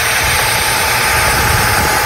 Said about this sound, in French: il le passe à la ponceuse et le téléphone se détruit